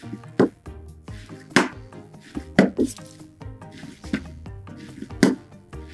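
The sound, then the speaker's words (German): Pottery clay kneaded with both hands in a forward-rolling motion gives rhythmic, dull, squishy thumps, one roughly every second, with soft handling noise between them. “nimmt den Ton, knetet ihn quasi mit beiden Händen immer vorrollend einmal durch.”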